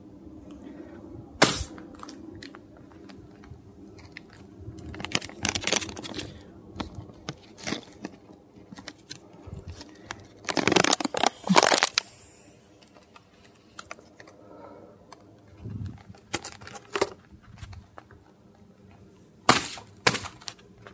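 A Capri-Sun drink pouch is squeezed in an attempt to burst it with a pop. Many irregular sharp crackles and clicks of plastic are heard, with a few louder bursts of crackling, alone and without speech.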